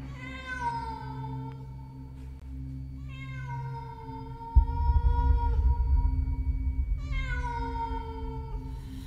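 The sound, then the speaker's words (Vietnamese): A stray cat yowls at night in three long, drawn-out, wavering cries that slide downward in pitch. A low rumbling background swells partway through. “Ngoài cửa sổ, từ bao giờ vọng lại tiếng mèo hoang kêu lên giữa đêm trường tịch mịch, nghe đến não nở lòng.”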